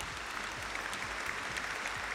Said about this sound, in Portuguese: Palmas pra você, viu? Pra poder rimar. É, deixa eu bater a palma aqui.